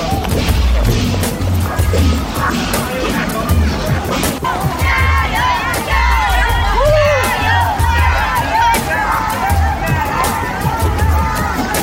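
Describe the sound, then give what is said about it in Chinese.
Spectators cheer at a marathon around the 31 km mark, a loud, dense roar of shouting and voices that carries on steadily throughout. “喝彩终将停下来。”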